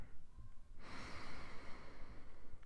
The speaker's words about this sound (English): Let's close our eyes, start taking deep breaths in and out,